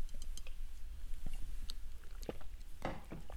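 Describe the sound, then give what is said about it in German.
Soft wet sips and small mouth clicks as someone drinks cold coffee, scattered quiet noises ending in one louder slurp near the close. “warte mal, ich muss hier nochmal hier ein Schlückchen äh, Kaffee trinken, ja, der wird ja auch kalt.”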